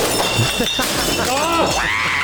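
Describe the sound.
Glass smashed in a rage room: a sharp, bright shattering crash with clinking fragments, followed by people talking.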